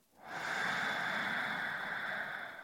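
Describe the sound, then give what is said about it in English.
A deep cleansing breath drawn in slowly while sitting somewhere quiet, heard as one long, steady, airy inhale that swells quickly and holds a smooth hiss almost to the end, with no voices over it. “let's take a cleansing breath, filling all the way up. Inhale.”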